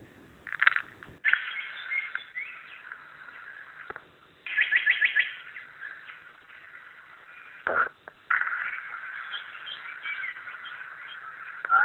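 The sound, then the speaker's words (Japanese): Small birds singing in a large forest in the early morning, many bright chirps and trills overlapping, including a quick rapid series of repeated notes, with short pauses between bursts of song. “特に朝方、入っていくとかなり小鳥の声が聞こえますので、ちょっと録音したものを残しておきたいと思います。”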